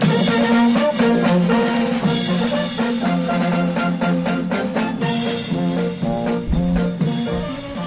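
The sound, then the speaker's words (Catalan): Ball de Gitanes folk dance music, known in Sentmenat as the Ball de la Plaça, plays as a loud, dense ensemble at a steady level throughout, with no voices. “Una de les activitats que organitza el Coro és el Ball de la Plaça, que sona així.”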